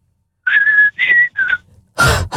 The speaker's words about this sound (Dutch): Kan jij ook fluiten? Heel goed. Ja? Doe eens een stukje.